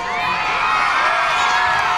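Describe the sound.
A crowd of children cheering and shouting together, a continuous, loud, high-pitched mass of voices that stays steady from start to finish.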